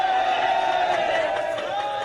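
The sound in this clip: A crowd in Thailand cheers as the youth footballers missing nine days in Tham Luang cave in northern Chiang Rai province are found alive, a loud, sustained roar of many voices shouting together without a break.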